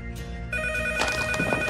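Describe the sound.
Landline telephone ringing in a hallway of a mansion, a steady electronic ringing tone that begins after a brief moment and carries on, fairly faint.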